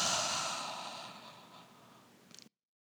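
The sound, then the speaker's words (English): A long exhale let out through the mouth during a yoga breathing cue: a soft, airy rush that starts strong and gradually fades over about two seconds, ending in a brief faint flutter. “have a breath in through your nose and let it go through your mouth.”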